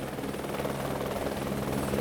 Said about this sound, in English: Helicopters are the other way in and out.